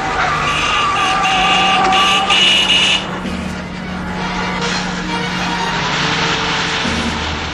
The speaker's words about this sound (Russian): На перерез по дороге проезжает грузовик.